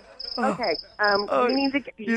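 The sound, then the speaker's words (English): A cricket chirps in a run of high-pitched, trilled bursts that repeat at an even pace while people talk over it. “No, that is the noise of a cricket.”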